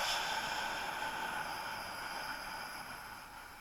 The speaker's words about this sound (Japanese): ゆっくりと長く吐きますね。まず吸って吐きます。